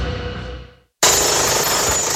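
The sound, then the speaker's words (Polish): A demolition hammer pounds with a loud, dense, rapid rattle that cuts out for a moment, then starts again just as loud. “Młoty kujące. Wypożyczalnia.”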